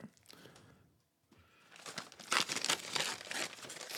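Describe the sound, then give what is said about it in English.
A bag is ripped apart and crinkled into a makeshift plague doctor mask. Faint rustling fades into a brief pause, then loud, dense crackling and tearing continues to the end. “he's ripping a bag, putting it around his face to make like a plague doctor mask.”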